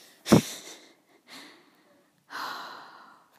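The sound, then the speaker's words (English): A teenager's heavy breathing while upset and close to tears: three airy breaths, a sharp, strong first gasp followed by two softer, longer breaths, with silence between them. “literally breathing so heavy right now”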